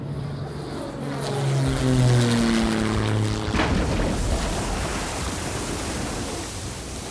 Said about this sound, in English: Oh, and enjoy the emergency landing.